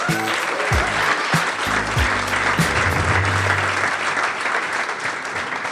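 A live audience applauding as a comedian is welcomed on stage, with loud, dense, continuous clapping throughout.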